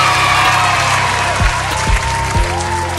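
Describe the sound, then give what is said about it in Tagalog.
Applause in a lesson after the teacher asks the learners to clap for themselves: a steady, dense wash of clapping with a few low thumps, continuous throughout. “Palakpakan ang inyong mga sarili!”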